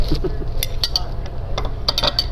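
Cutlery and dishes clink while someone eats scrambled eggs in a diner, a few light, sharp metallic taps over a steady low background rumble.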